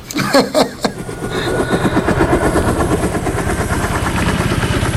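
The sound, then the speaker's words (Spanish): Helicopter noise chops on in a fast, even beating rhythm, loud and continuous after a brief burst of other noise at the start. “Hasta con ruido de helicópteros, ¿eh? Incluido. Lo oímos.”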